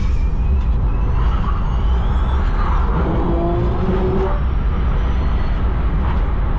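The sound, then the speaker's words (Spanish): An electric car at full throttle on the Nürburgring during a record run gives a steady, loud roar of tyre and wind noise with a faint high whine above it. The sound has no engine note and no voices. “Este es un video, cómo suena un auto eléctrico yendo a fondo en una pista buscando un récord.”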